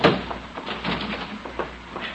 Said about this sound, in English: He'll break through in a minute. Where did I... It's in the cellar. I took it with me. The door's giving way.